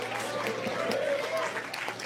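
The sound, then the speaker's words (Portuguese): Church audience clapping in praise to Jesus, a fairly faint, steady rhythmic beat of hand claps with voices carrying over it. “Exalta o Senhor com palmas bem alegre para Jesus. Palmas e glória a Deus. Palmas e aleluia.”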